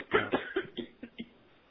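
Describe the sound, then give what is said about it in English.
A person on an open call line coughs in a quick series of several harsh, dry bursts that grow weaker toward the end, alone without talk. “Would there be any possibility to have the person who's coughing mute themselves if they could?”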